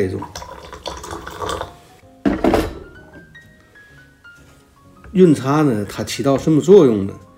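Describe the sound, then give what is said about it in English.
Water at 100 °C is poured into a cup for a first tea steep, making a splashing, trickling stream with one brief louder splash, followed by a voice speaking. “We'll begin our first steep, which is called the yuncha, where we pour our water at 100 degrees Celsius into our cup.”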